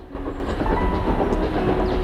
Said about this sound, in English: The man stands with his back to the train as it puffs around a corner.